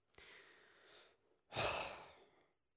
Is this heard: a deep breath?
yes

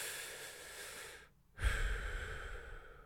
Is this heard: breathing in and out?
yes

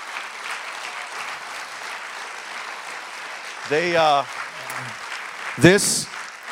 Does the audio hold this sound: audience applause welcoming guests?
yes

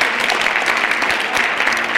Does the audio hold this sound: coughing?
no

